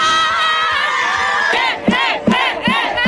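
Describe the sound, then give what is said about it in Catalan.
Students at the Com sona l'ESO campsite in the Fort Llopis stadium in Gandia give a loud, sustained group cheer, then shout in a string of rhythmic chanted bursts. “Espera l'ambient, ai, alegria! Quina energia més bonica, sí. Doncs aquesta energia tan xula hi havia a l'estadi del Fort Llopis de Gandia ahir”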